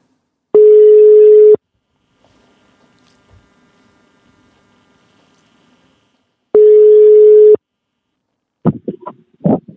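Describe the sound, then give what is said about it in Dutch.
A telephone ringback tone sounds while a call is being placed: two long, steady, mid-pitched buzzing tones separated by a long quiet pause, loud and clear with nothing over them. “Jij mag hem gaan bellen.”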